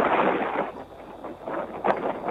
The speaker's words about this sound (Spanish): está bravo el viento, porque hace un rato estuvimos ahí y vimos que soplaba fuerte el viento